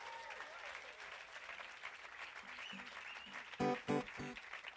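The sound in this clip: An audience applauds to welcome musician Darrell Scott at a FloydFest workshop, a steady, moderate patter of clapping, followed near the end by a few loud, sharp tonal hits.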